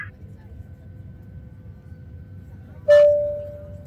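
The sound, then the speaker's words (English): An airplane seat call button chimes once: a bright, clear ding that rings on and slowly fades over a steady low rumble. “I see you rang your call button.”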